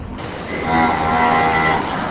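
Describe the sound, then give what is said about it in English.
Cows in a large freestall dairy barn, where one long, drawn-out moo swells up over a steady background hum and then tapers away. “The cows are kept in long aisles but can rest on beds of sand, walk a bit, or poke their head through metal bars to eat.”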